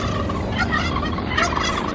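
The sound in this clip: Turkeys gobble in a flock, with many rapid, warbling gobbles overlapping one another in a steady, lively chorus with no talk.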